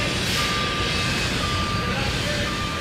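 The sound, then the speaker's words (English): Truck reversing beeps sound at a construction site where a new history center is being built, thin high tones recurring over a loud, steady rumble and hiss of machinery. “That's the sound of the new $20 million History Center that they were still building at the time.”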